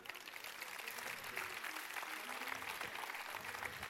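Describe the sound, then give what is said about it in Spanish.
Applause from the audience at a murga contest in Pontevedra: dense, steady clapping that runs evenly through the whole clip at a fairly faint level, with no clear break or peak. “Un aplauso.”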